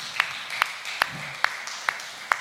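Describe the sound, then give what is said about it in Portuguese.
A church audience clapping for Jesus during a service. Six sharp, evenly spaced claps land in a steady rhythm, each one crisp and bright against a quiet background. “Palmas para Jesus.”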